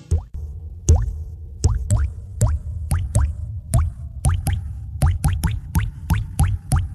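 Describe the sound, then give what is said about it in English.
Water drips from a plumbing leak as many distinct hollow plops with a quick upward pitch bend. They land at an uneven pace, sometimes in fast clusters, over a low background rumble. “Have a leak? Call Roto-Rooter. They're more than just drains and can tackle any plumbing problem.”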